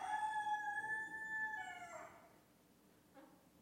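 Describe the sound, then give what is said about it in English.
A rooster crows once in a long, clear, harmonic call that drops in pitch at its end and then fades. A brief faint sound follows in the quiet. “What do you think when you hear the rooster crow?”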